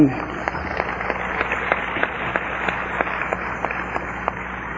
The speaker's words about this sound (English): don't applaud for that.